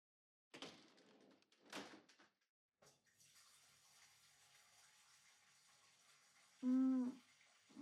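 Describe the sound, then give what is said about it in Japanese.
Water running from a tap into a bathtub, starting cold and meant to turn hot, a steady faint hiss that sets in after a few soft thumps and knocks and continues to the end. “出し始めはちょっと冷たいや。しばらくしたらお湯がたまると思うから”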